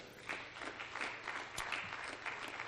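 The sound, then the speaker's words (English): An audience claps during a church service, giving a hand clap of praise. The clapping is steady, faint and fairly even, with no talk over it. “Can we give the Lord a hand clap of praise for,”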